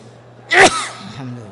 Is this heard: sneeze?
yes